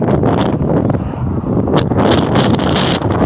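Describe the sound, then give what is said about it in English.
Wind buffets a microphone while someone walks outdoors, a loud, rumbling roar heavy in the lows with uneven gusts and rustling bursts, no speech over it. “Really feel like walking back in this wind, or I need to, so I need to get back.”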